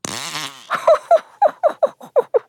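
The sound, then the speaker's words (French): A loud run of fart sounds: a longer tonal blast opens, followed by a rapid string of many short, punchy bursts in quick succession, with no talking. “Qu'est-ce que j'entends? Prout, prout.”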